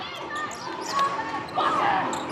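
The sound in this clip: A basketball is dribbled on the court floor during a game between Sydney University and Macau, a few bounces under ongoing talk.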